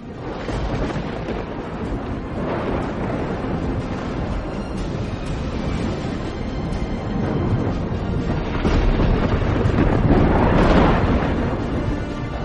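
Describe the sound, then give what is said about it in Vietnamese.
Storm wind with rumbling thunder as a storm approaches: a continuous, broad roaring wash with deep low rumble, swelling in a few surges and growing louder toward the end, with no voices. “những tiếng trống trận ầm ầm vang lên, âm thanh sấm rền xuất hiện. Khung cảnh nơi đây dường như là đang chuẩn bị có một cơn bão đang kéo đến.”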